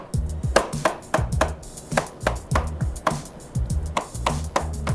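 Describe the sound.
Rolled ice cream is chopped on a cold tray with many quick, hard scraping strikes in short rhythmic bursts and brief pauses between them. The chopping is loud and clear, with no talking.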